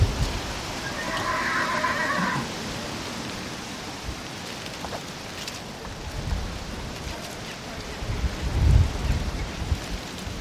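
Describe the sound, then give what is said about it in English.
Autumn wind howls through fully leaved trees in the farmyard of High Ash Farm after rain. A steady, rushing roar rises and falls in gusts and swells loudest near the end. “Autumn has arrived at High Ash Farm. I'm in the farmyard and the trees are blowing around, still fully leaved, but the wind is really howling”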